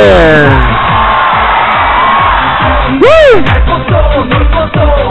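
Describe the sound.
A live concert audience screams and cheers in a loud, continuous roar. Midway through, a shrill whoop rises and then falls in pitch above the crowd.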